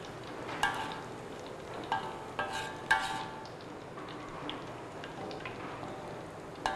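Shallots frying in vegetable oil until golden and crisp give a faint, steady sizzle broken by a few sharp crackles and pops, with no talk.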